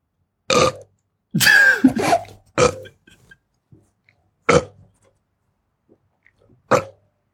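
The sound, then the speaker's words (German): Loud burps from a person trying to burp out numbers: several separate belches, one long and drawn-out with a wavering, gurgling tone, the others short and abrupt, with quiet gaps between them. “ich kann keine 4 rülpsen, glaube ich.”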